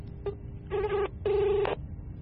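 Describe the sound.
A telephone ringback tone sounds while a call is placed. A brief blip is followed by two steady, buzzy, mid-pitched rings, the second longer than the first, with quiet gaps between them.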